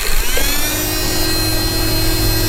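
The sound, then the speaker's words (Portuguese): A small handheld portable fan is switched on. Its motor gives a steady, loud whirring hum with a thin high whine, running without a break. “Estava a ligar uma ventoinha portátil.”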